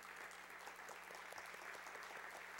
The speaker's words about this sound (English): Would you signify by a round of applause your approval?